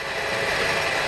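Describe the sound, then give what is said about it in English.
Almost 1,000 gallons of jet fuel whooshing through a hose into the wing of a Boeing 737 MAX 9 at San Francisco International Airport, heard as a steady, dense rushing hiss. “That is the sound of almost 1,000 gallons of jet fuel whooshing through a hose over my head and into the wing of a 737 MAX 9 at San Francisco International Airport.”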